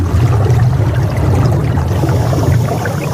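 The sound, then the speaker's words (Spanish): Underwater ambience while diving in Caribbean waters off Grenada in the Lesser Antilles: a loud, steady low rumble with faint bubbling and watery hiss, continuous throughout. “Estamos efectivamente buceando en las aguas de una de las Antillas Menores.”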